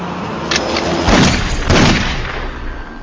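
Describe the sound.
Gunshots in a TV drama scene: a couple of loud, dull, heavy bangs land close together over a steady noisy background.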